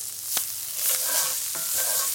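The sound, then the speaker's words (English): Leeks sizzle in butter in a pan, giving a steady bright hiss with a few sharp crackles and stirring sounds. No one speaks. “you want it to sizzle. You want them to start cooking immediately. So, just gonna give that a few more seconds. Okay, and I'm swirling it a little bit. And now I'm gonna add my leeks.”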